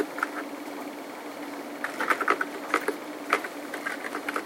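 Typing on a computer keyboard: faint, irregular key clicks, scattered at first and then bunching into quicker clusters, over a quiet steady background.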